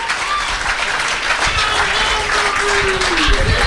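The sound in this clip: A crowd at a live show in Philadelphia cheers and applauds: loud, dense, continuous clapping mixed with shouts and whistles, steady from start to finish.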